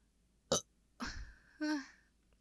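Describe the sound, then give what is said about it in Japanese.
A burp, a short voiced croak with a falling tone, comes after a couple of brief breathy mouth noises, all fairly loud and with no talk. “ゲップも出ちゃったけど”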